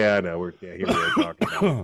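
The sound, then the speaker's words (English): A smoker coughs and clears their throat at a microphone: a few rough, voiced bursts in close succession, fairly loud, with no words spoken. “I didn't hit my cough button.”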